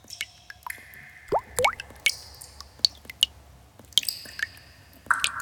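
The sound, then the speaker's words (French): Water drops drip in an underground cave as many bright, pitched plinks and plops at an irregular pace. Some have quick gliding tones, over a quiet, low background. “Écoute. Tu entends le bruit que font les gouttes d'eau ?”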